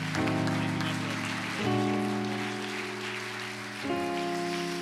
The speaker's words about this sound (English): Can you put your hands together? Welcome evangelist Tim Greene from Atlanta, Georgia.